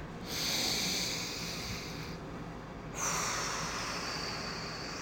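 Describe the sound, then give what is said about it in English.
A deep breath is taken: two long, airy rushes of breath, each lasting about two seconds, separated by a short pause, with no talking. “Take a deep breath.”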